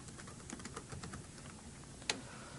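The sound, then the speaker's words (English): Faint keystrokes on a computer keyboard as a password is typed, soft scattered taps with one sharper key press near the end. “And if I typed my password correctly, we should be good.”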